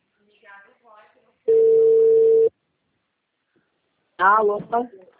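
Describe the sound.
A single steady ringback tone on a mobile phone call lasts about one second at a constant pitch. Human voices talk briefly before it and again after it.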